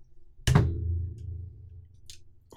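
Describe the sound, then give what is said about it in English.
A single heavy metallic thunk as a wrench is used to try to open something, with a low ring that fades over about a second, followed by a few faint light clicks. “No, we're trying to open up it with a wrench.”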